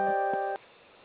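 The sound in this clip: Electronic beep from a telephone keypad after pressing zero on an automated phone menu. A single bright, buzzy tone lasts about half a second, then the line drops to faint hiss.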